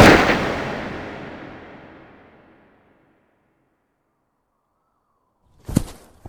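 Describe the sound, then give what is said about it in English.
Gunshots from a gun drawn during a heated confrontation: one loud bang rings out and slowly decays over a few seconds into silence, then a second sharp burst of cracks erupts near the end. “He's got a gun.”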